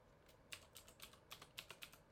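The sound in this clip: Keys clatter on a computer keyboard as a gunzip command is typed into a Linux terminal: a quick, uneven run of many crisp, light keystrokes over a quiet background.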